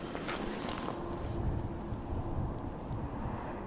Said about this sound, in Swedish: Är från vindkraftverken som står här uppe på höjden. De som vevar sina vingar